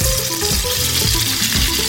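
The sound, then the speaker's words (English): A sandwich dipped in egg batter and rolled in panko breadcrumbs fries in hot oil, giving a loud, continuous sizzle with dense crackling and no talk. “The frying will give the sandwich a nice crispy texture, not unlike the Monte Cristo.”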